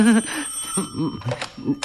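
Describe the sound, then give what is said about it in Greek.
A telephone ringing with a bright, high, steady bell tone throughout, partly covered by louder voice-like sounds in short bursts. “Α, το τηλέφωνο.”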